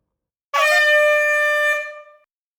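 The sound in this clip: A single sustained signal tone, buzzy and horn-like with rich harmonics, starts abruptly and holds steady for nearly two seconds. It then fades out, heard alone with silence before and after.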